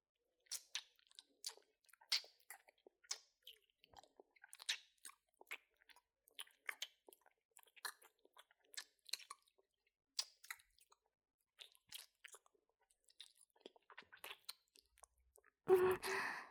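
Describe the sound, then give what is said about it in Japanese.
Soft, wet mouth sounds of two people licking each other's fingers: many quiet smacks and clicks in an irregular rhythm, ending with a louder breathy burst. “じゃあ、お互いに指を舐め合おう。”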